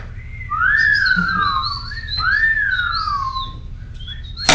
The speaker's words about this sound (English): Okay, now, this is whistle.